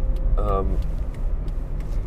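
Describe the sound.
Car interior while driving on the road, a steady, low road and engine rumble throughout, with a brief voice near the start.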